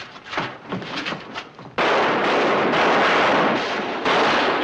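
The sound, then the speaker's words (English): Gunfire sprays down a street during a gang's robbery getaway, a loud, dense roar of shots that blend into a continuous rumble, briefly softer before surging to full strength and holding. “don't forget to throw a few rounds down the street just for the fun of it”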